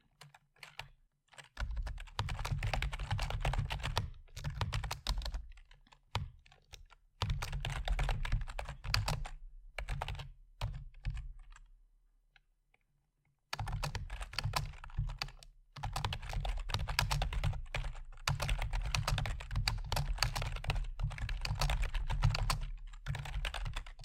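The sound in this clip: Typing on a computer keyboard while writing a script: dense, rapid clicking keystrokes in long bursts broken by a few short pauses, with no talking.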